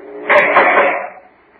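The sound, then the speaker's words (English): A prison cell door in a penitentiary death house is opened by a guard, giving one harsh, rushing metallic scrape that lasts under a second before trailing off. “Oh, guard, open the cell door.”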